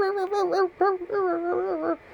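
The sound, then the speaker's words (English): A human voice imitates two excited dogs barking, making a few drawn-out, wavering whiny yelps at a fairly high pitch with short breaks between them. “and their tails were wagging, and they were barking like,”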